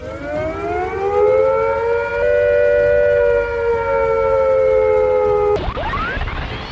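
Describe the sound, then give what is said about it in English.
A civil defence attack warning siren sounds a long, sustained wail, loud and nearly steady in pitch with a rich layered tone. It cuts off abruptly near the end as a different rising tone begins. “If attack is imminent, you will hear the attack sound like this.”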